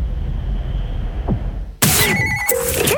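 A telephone rings in a radio advertisement. After a low, quiet hum, bright harmonic ringing tones burst in abruptly partway through and continue loudly to the end.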